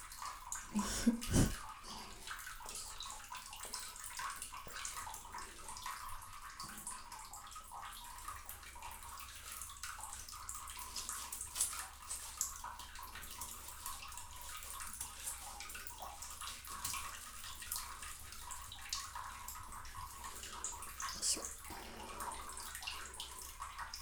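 Water sloshing softly in a bath while a body is washed, with faint, continuous trickling and splashing and a brief louder splash near the start.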